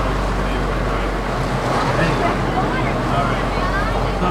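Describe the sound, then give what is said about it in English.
Continuous rumbling of a large off-road safari adventure ride vehicle at Six Flags, carrying about 15 to 20 riders, holds at a steady level while voices murmur beneath. “Right now we are on the covered wagon safari ride, or I don't know. We are on safari off-road adventure. It's a big car of about maybe 15-20 people.”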